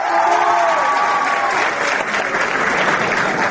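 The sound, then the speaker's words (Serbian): Loud, sustained audience applause greeting Ambassador Dezer, a dense wash of many hands clapping at steady strength throughout, with a hint of voices in the crowd at the start. “Aplauzi kojima su uputili pozdrav samom ambasadoru Dežeru lako bi se mogli protumačiti kao izraz simpatija prema evropskoj ideji.”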